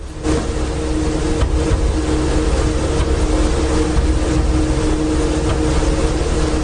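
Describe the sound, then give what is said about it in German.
A continuous whirring hum comes from a server rack holding poorly damped hard drives. The steady, fairly loud mechanical drone has a low rumble and a faint tonal whine. “Das ist mein Server-Rack mit etwas schlecht gedämpften Festplatten. Die machen immer so Holpergeräusche.”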